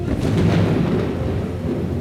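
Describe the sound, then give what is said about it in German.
Artificial rain falling from a technology demonstration unit: a steady, dense hiss over a low rumble, constant in loudness throughout the short stretch. “Wow, es regnet. Irre. Ein weiteres Wunder der Technik.”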